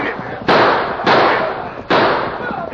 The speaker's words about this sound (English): They're shooting! Give it to them, boys!